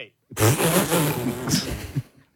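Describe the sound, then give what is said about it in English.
A leaf blower runs in one short burst of about two seconds, a harsh motor whine with a wavering pitch that starts abruptly and then fades out. “Did you get a leaf blower? Oh, my God. Can I use the leaf blower?”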